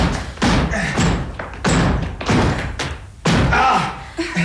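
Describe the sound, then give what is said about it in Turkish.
Heavy thuds of a locked door being forced and broken down, several loud blows in irregular succession with rough, rumbling noise between them. “Evet, sanırım kapıyı kırmamız gerekli.”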